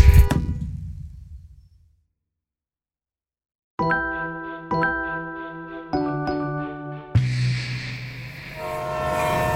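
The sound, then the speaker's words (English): A freight train's horn sounds after a fading rumble and a short silence: a few loud, sharp horn blasts, then a longer sustained blast over rolling train noise. “It's a freight train. It's a freight train. Like, it's meant for big shit.”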